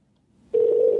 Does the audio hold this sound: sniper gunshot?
no